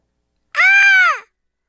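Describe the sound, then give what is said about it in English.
A single harsh, crow-like caw from a bird in a film soundtrack, loud and sustained for under a second, with nothing else around it. “Oh, it's about time you came back, bird.”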